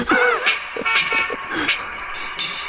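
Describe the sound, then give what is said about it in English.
A short musical bumper with horn-like toots plays under people talking, its bright tones partly masked by the voices. “Oh, man, I talked over my own bumper.”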